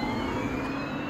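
Skoda Kodiaq plug-in hybrid car giving a brief, steady whirring drive hum with a faint high whine above it.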